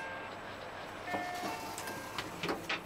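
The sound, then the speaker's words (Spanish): The Estrella Naranco sleeper train from Alicante, with six-berth compartments, rolls along as a faint, steady rumble broken by a few light clicks. “Resulta que este tren viene desde Alicante, en la Costa Blanca, y se hace llamar Estrella Naranco”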